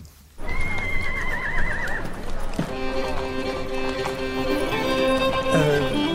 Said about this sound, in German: Da drüben auf der Koppel. Sind das die Pferde? Das sind die Pferde, ganz genau.